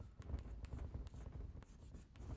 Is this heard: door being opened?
no